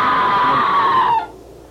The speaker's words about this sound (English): There it is again. That was a scream